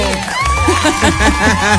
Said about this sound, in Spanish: Con aplausos.